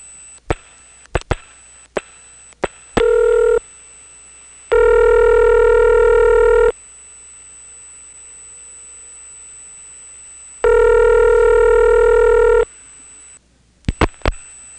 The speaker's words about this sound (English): Well, it flashed, and it's on T-Carrier. Let's dial some more stuff.